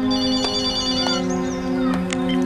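A telephone rings on the line after a number is dialed. It is a steady, continuous electronic ringing tone with a few faint clicks over it.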